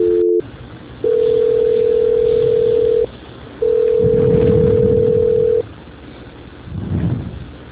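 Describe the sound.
Telephone transfer tones while a caller waits on hold: a short tone, then two long, steady mid-pitched tones separated by a pause, over faint line noise.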